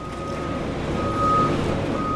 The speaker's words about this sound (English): The 40-foot-long German-built grinder dominates the center of the processing floor and emits a constant rumble as a nearby Grappo-equipped excavator deposits worn-out tires into the machine's feeding compartment.